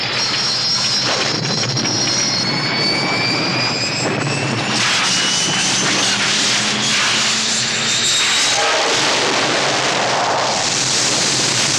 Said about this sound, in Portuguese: Os sensores desligaram, não enxergo nada. Segure-se. Vou iniciar o pouso.